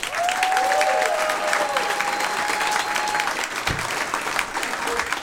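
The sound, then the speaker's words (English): Comedy-club audience applauding to welcome a stand-up comedian, a dense, steady wash of clapping that holds at an even, loud level for about five seconds without pause. “Make a lot of noise for the very funny Tom Simmons.”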